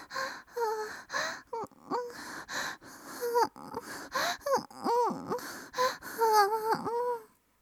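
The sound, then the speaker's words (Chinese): A woman pants and moans, with many short breathy gasps and voiced moans in quick succession. Her pitch bends up and down, and the sounds are fairly loud and nearly continuous. “听着女人的娇喘声”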